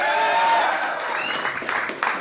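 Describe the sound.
Applause and cheering from an audience at a political campaign speech in Des Moines, a dense steady wash of clapping that carries a voice near the start and swells slightly toward the end.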